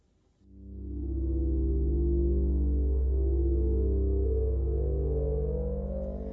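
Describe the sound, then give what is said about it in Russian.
Spaceship engines give a low, throbbing hum as the ship begins flying slowly in the atmosphere. The hum swells in quickly at the start, then holds loud and steady with a slow pulsing beat. “И тут же диски исчезателей изменили тон. Корабль начал свой полет, пока медленный, в атмосфере.”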